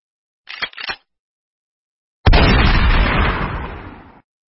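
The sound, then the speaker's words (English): A Mossberg 590 A1 shotgun fires one loud, booming shot whose blast trails off for nearly two seconds, after a few brief clicks and a stretch of silence. “That is the Mossberg 590 A1 shotgun.”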